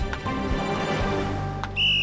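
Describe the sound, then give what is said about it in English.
A person whistles to call players together after sports tryouts on a field: a short, sharp, high whistle cuts in at the very end over a steady background hum. “Al whistles to get everyone's attention.”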